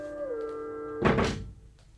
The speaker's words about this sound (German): Er schloss die Tür, die normalerweise offen stand